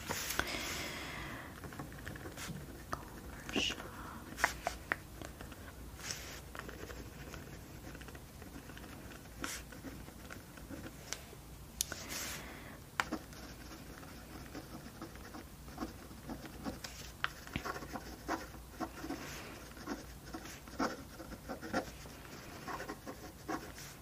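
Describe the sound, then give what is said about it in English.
A pen scratches quietly across the pages of a paper planner as notes are written, making a soft, steady rasp broken by many small strokes and light taps, with no talking. “I'm just gonna write a couple notes in my planner.”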